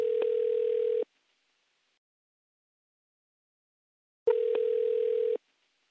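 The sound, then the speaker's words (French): Ringing tone of an outgoing telephone call: two long, steady beeps of about a second each, separated by a few seconds of silence. “on va le faire. Appelons, appelons-le, appelons Cédric Villani.”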